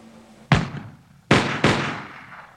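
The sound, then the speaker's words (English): British troops fire their guns at Lexington in three sharp, loud reports, each with a decaying tail. The first shot stands alone, and the other two follow close together. “Whatever the truth, the effect was electrifying. Without orders to do so, the British troops began to fire.”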